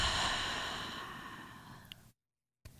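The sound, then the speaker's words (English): A deep breath out during a guided meditation: a soft, airy rush of air, loudest at the start and fading steadily over about two seconds into silence, with no talk. “So we'll go ahead and breathe in. We'll hold it and out.”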